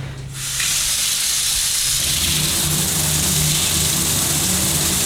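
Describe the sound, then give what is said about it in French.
A shower runs with hot water, its spray switching on abruptly as a loud, steady hiss that then holds evenly throughout. “L'eau est chaude. Ah. L'eau est chaude. Ah, tous les matins. Tous les matins, tu prends une bonne douche.”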